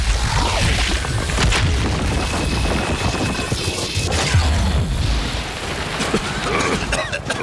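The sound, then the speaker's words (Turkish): Heavy booming blasts from an explosion blowing up a back wall, a dense, loud, unbroken rumble of rolling bangs and crackling. “arka duvarı patlat. Hemen.”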